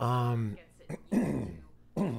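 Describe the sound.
Throat clearing: a few rough, gravelly rasps and a short hack follow a brief sustained voiced tone, moderately loud with short pauses between the bursts.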